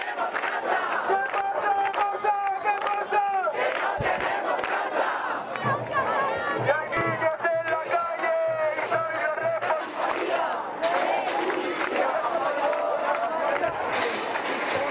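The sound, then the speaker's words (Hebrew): Protesters at a housing protest in Spain shout and chant as a dense, loud crowd, voices rising and falling continuously, with a low droning buzz underneath for a few seconds partway through. “אז אנחנו שומעים אותם צועקים, זה תוך כדי שהם משליחים גדרות ברזל על, על, על השוטרים שמנסים, שמנסים לעצור אותם ולפנות אותם מהכיכרות.”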